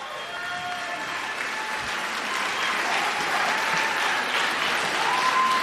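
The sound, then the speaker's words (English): A standing ovation from a concert audience after a live performance: thick, continuous clapping that holds steady and grows slightly louder toward the end. “How about that, y'all? Standing O.”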